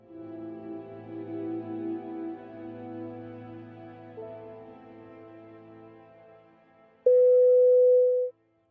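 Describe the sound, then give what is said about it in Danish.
A steady electronic signal tone marks where to stop playback of an audio story used in a lesson: one loud, even beep lasting just over a second, following a softer tonal passage that fades away. “når signalet lyder, så stop afspilningen og vent på underviserens go.”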